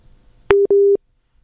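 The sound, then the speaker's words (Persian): Two short, steady, low telephone tones, each starting with a click, sound in quick succession as a WhatsApp caller connects to a studio, then silence follows. “اما حالا یک شنونده از طریق واتساپ فکر میکنم پیوستن با ما”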